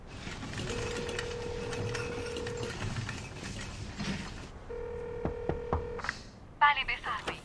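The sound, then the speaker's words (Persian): A telephone number is dialed to call a lawyer: a steady tone is followed by a run of short touch-tone keypad beeps, and then a few rattling clicks over faint background noise. “میخوای زنگ بزنی به وکیلت؟”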